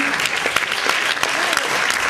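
Applause from an event audience greeting a screenwriter introduced as a jury member, a dense, steady wash of clapping that holds at an even level throughout.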